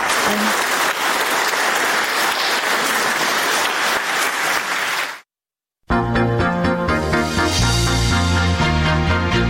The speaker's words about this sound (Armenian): Տեսագրությունից պարզ չէ, արդյոք ներկաները նրան հարցեր են ուղղել կամ դիտարկումներ արել, բայց ելույթն ընդունել են բուռն ծափահարություններով։